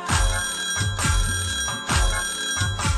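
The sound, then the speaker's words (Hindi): A telephone bell rings in quick repeated bursts over a steady, bass-heavy musical beat, loud and rhythmic throughout. “ट्रिंग ट्रिंग ट्रिंग ट्रिंग घंटी बजी। मैया जी ने एक दिन फोन किया,”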